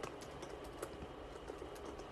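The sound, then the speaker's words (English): Computer-keyboard typing: many quick, light key clicks in a steady, busy patter over a constant noisy background. “So let me just type in here real quick.”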